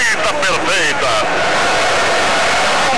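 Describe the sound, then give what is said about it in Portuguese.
A football crowd roars loudly at a Brazil goal in a dense, sustained wall of noise, with shouting voices standing out near the start. “Agora gol do Brasil. A torcida da massa brasileira.”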